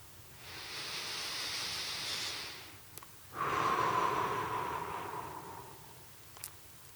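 Slow, deep breathing during a guided breathing exercise: two long, airy breath sounds with a steady soft hiss. The second is louder and fuller, with no talk.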